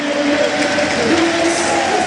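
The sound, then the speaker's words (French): Stadium crowd at Stade Marcel Picot in Nancy applauding a departing player during a football match, a broad, steady wash of clapping with a voice talking over it. “Ilyes Sousli très largement applaudi par le stade Marcel Picot”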